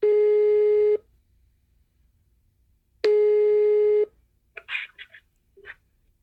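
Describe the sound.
Ringback tones on an outgoing telephone call to Ukraine: two long, steady, low-pitched tones of about a second each, separated by roughly two seconds of near silence, followed by a few faint, brief sounds.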